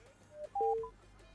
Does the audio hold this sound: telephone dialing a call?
yes